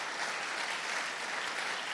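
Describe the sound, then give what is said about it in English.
An audience claps during a sermon, a brief burst of dense, even clapping heard alone. “Let's clap our hands for Jesus one more time.”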